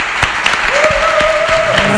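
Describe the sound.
Audience applause fills the whole stretch, steady, dense and loud, with individual claps blurring into a continuous wash and a sustained voice-like tone riding over part of it.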